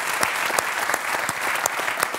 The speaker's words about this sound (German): Ihr Applaus.